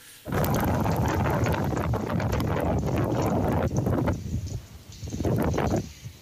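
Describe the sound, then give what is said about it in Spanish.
Strong wind in La Serena, Chile, roars and buffets the microphone in heavy gusts. The dense rumbling rush stays loud throughout and dips briefly twice near the end before surging again. “Se nota ahí mucho viento, ¿eh? Y el sonido también.”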